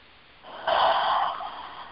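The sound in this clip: A group of people draws in a deep breath together: one breathy intake that swells sharply, then slowly fades over about a second, with no voices.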